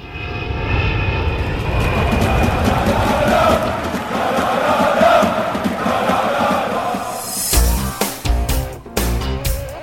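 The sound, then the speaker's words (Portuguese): An airplane engine sound effect plays as a jingle. A loud, steady roar lasts about seven seconds, then breaks into choppy, uneven bursts near the end. “solta o hino aí do avião, que a gente vai para a Europa.”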